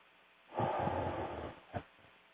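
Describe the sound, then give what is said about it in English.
Deep breathing from a person during a relaxation exercise: one long, airy breath of about a second, then a short, softer puff of breath, with no talking. “And just take some deep breaths.”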